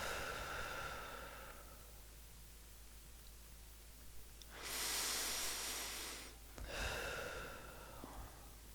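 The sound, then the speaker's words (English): Slow, deep breathing, in through the nose and out through the mouth: a few soft, airy rushes of breath separated by quiet pauses, with no talking. “deep breaths in through our nose and out through our mouth. In through your nose and out through your mouth.”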